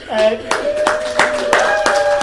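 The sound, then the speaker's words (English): Audience clapping at an event thanking a Microsoft employee who sponsored refreshments. Hand claps fall in a slow, steady rhythm, and a sustained voice runs over them throughout. “And he happens to work for Microsoft, so we'll clap them, okay?”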